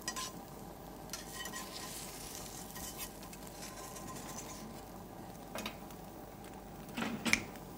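Steady sizzling of an omelette frying in a pan over a flame: a continuous low crackling hiss that holds even throughout, with a brief sharper knock near the end.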